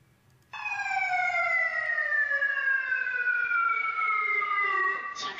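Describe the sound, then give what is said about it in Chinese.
A wailing fire alarm sounds inside a building during a fire evacuation drill: one loud, sustained tone that slowly falls in pitch for several seconds. “下午3点，演练正式启动，大楼内响起火情报警与疏散广播”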